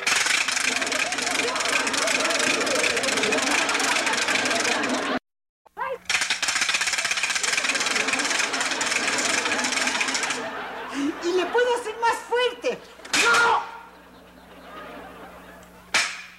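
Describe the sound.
A wooden ratchet rattle is spun, giving a loud, rapid, continuous clatter in two long bursts separated by a brief silence. After the second burst, people talk, with sharp, shouted exclamations.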